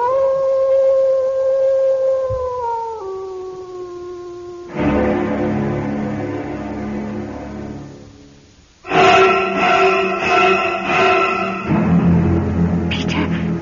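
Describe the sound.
An animal howls just outside a house in a long, sustained, wavering cry that drops to a lower pitch partway through. Loud, rough bursts of noise follow.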